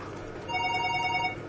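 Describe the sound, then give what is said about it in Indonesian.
A telephone rings once during a religious talk: a single bright, warbling electronic ring lasts about a second over a faint background hum, then cuts off. “Ayo kita angkat telepon dulu.”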